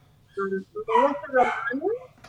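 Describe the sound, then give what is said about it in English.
A dog gives a few short, high yelping barks and whines in quick bursts over a low, steady hum. “that's your dog, not mine. That is my dog.”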